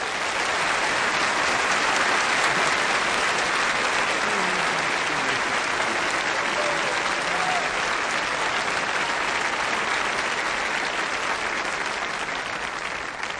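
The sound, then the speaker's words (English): A standing audience applauding to welcome a guest preacher: a dense, sustained wash of clapping from many hands that stays loud and even throughout. “Stand up and welcome him with applause. Tony Campolo.”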